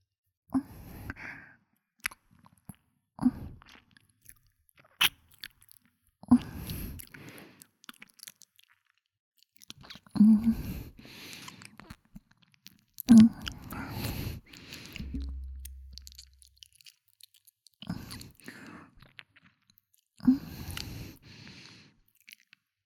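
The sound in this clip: Soft, wet chewing and mouth sounds while lotus seed soup is fed mouth to mouth, coming in many short, quiet bursts with breathy sighs between them and no clear speech.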